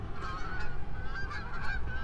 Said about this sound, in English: Look at the birds. They look like they're coming right at us.